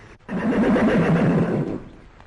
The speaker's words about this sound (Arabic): خيل إلي أني سمعت صوت حصان يصهل. حصان يصل